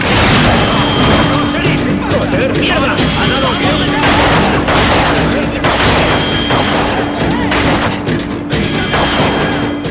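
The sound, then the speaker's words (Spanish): Gunfire in a 2007 western action film as a shot is fired at a sheriff's deputy, set in a loud, dense mix of bursts and crashes that continues throughout. “Dispara contra un ayudante del sheriff.”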